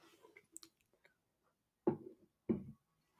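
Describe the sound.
Someone eats a Pringles potato chip. A few faint mouth clicks are followed by two crisp, quiet crunches about half a second apart.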